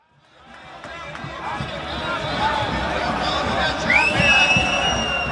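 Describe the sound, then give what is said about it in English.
Crowd noise fills Vienna's city streets on a Saturday: a dense, continuous babble of many voices and movement that swells from the start, with high whistle-like tones rising near the end. “This was the sound of Austria's capital, Vienna, on Saturday.”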